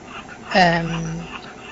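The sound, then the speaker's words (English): A strained, wheezing stridor comes from an 8-year-old spayed female Jack Russell Terrier with laryngeal paralysis after a dog bit her neck. One drawn-out tonal breath rises sharply and then holds steady for under a second over a faint background. “I don't know if you can hear. I cannot hear very well the stridor of the dog. I hope you can hear it better than I can.”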